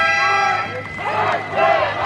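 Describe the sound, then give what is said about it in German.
Hundreds of VW workers protesting with whistles outside the plant gate in Zwickau against company cost cuts: shrill, sustained whistle tones over a crowd's shouting and noise, surging and dipping in loudness. “Obwohl ziemlich spontan angekündigt, haben am Mittag hunderte Mitarbeiter vor dem Tor des VW-Werks in Zwickau Posten bezogen. Mit Trillerpfeifen und Transparenten protestieren sie gegen die Sparpläne der Konzernspitze.”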